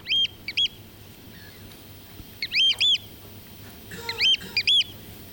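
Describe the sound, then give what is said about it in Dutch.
Eurasian oystercatcher calls: sharp, high piping notes in three short clusters of two to four, clear above a faint low background hum. “Een andere, de schoolekster.”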